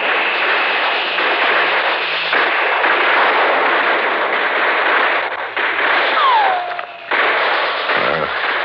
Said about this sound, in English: Those are real bullets they're shooting at us over there.